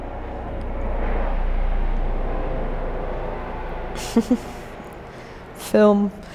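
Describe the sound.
Aeroplane sound effect: a broad, low engine rumble swells over a few seconds and then slowly fades, followed by brief bits of speech.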